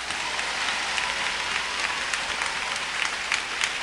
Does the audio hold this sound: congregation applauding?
yes